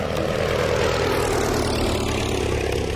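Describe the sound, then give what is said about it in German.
A propeller airplane drones steadily over a forest on a 1921 crop-dusting flight, dropping lead arsenate poison on caterpillars. The loud, rough engine hum holds an even level throughout, with no voices. “Heute vor 105 Jahren, am 3. August 1921, peilt der Weltkriegspilot John McReady den Wald an. An Bord der Maschine sind 60 Kilo Bleiarsenat.”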